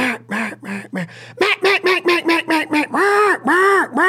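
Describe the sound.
A hunter's duck call imitates hen ducks in a series of calling cadences: a few slower quacks, then a fast run of short, bright quacks, finishing with a few longer, drawn-out quacks, loud and with no talking over them.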